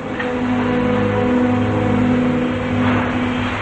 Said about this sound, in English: Blade drives his Dodge Charger over the tracks and into a large warehouse.